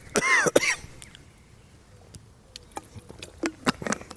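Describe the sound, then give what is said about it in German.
Coughing from someone who choked on a drink: a few harsh, loud coughs burst out at the start, then quieter throat clearing and small clicking throat sounds follow alone. “Entschuldigung, ich habe mich verschluckt. Ich muss einen Schluck.”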